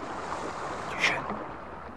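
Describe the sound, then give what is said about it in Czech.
Oars of a rowing boat work through water against a steady wash of noise, with one brief, brighter splash near the middle. “Vesla. Někdo jede lodí.”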